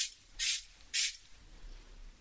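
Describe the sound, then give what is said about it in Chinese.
Two short, bright hissing bursts from a hydrating facial mist spray bottle, each lasting about a fifth of a second and separated by a brief pause, with no talk around them. “等一下，喷一下，这个是补水喷雾，”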